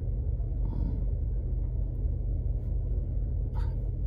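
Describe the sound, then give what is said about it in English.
Steady low rumble inside a car while driving, a constant engine and road drone that holds at an even level with no talk and only a few faint, brief higher ticks. “I can't press the button yet because I'm driving. It's against the law.”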